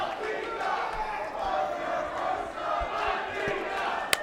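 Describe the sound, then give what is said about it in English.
A wrestling crowd chants a wrestler's name during a match, a steady roar of massed voices pulsing rhythmically throughout. “that is just encouraging a Thunder Rosa chant from the crowd”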